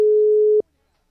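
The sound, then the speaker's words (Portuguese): Telephone busy tone on an unanswered call: one steady, mid-pitched electronic beep lasting about half a second, cutting off abruptly into silence. “o Davi não tá atendendo”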